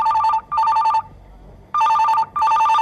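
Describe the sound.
A telephone rings in two double rings, each made of two short bursts of bright, warbling tones. A silent pause of under a second separates the pairs, and no voices are heard.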